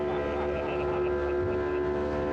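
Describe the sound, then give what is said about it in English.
Steady engine drone of a tiny motorboat crammed with passengers, speeding to Bacardi Island. The hum holds an even pitch throughout, with no breaks and no clear voices. “This small boat shows up, we all cram in and take off. When we booked our Bacardi Island trip, thought we'd be on a sailboat or a dinner cruise type boat, not this tiny boat.”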